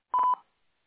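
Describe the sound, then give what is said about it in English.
Single short electronic beep of a voicemail recording tone, a clean mid-pitched tone lasting a fraction of a second, followed by silence. “At the tone, please record your message. When you've finished recording, you may hang up or press 1 for more options.”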